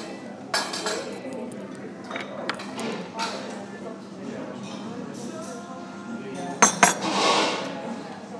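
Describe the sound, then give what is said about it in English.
Cutlery and dishes clinking at a café table during a sausage sandwich meal, with scattered light clinks and a brief louder cluster of knocks near the end, under background chatter. “The sound of me eating a sausage sandwich.”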